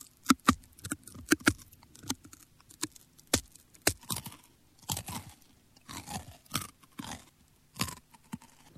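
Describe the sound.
Crunchy beetles, Goliath and Hercules beetles, are chewed with many crisp, irregular crunches and bites, some sharp and loud and others softer, with no talk.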